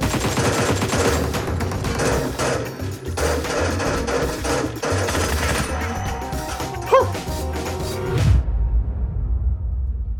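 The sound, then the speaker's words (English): Rapid gunfire in an online team shooter video game: dense, continuous bursts of shots and impacts that cut off abruptly near the end, leaving near silence. “Who's shooting? I can't get more than one kill in a row. Why does anyone play this game?”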